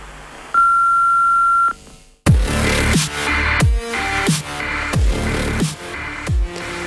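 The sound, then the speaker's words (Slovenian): An answering machine beep sounds before a message is recorded: one steady, sustained mid-pitched tone lasting about a second, heard on its own, then a dense burst of other sound takes over. “Po pisku oddajte svoj glas.”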